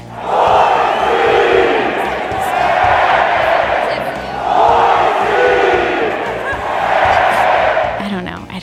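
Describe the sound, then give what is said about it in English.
A football crowd chants "Boise" in unison, four loud swelling waves of massed voices rising and falling in a steady rhythm, each chant drawn out before the next begins. “So like when you hear them chant it at the football games, they all go Boise.”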